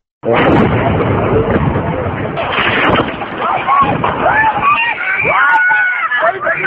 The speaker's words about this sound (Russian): Это звук со снятого мобильным телефоном видео, на котором видно, как от места взрыва 50-метрового мемориала огромные каменные куски летят в людей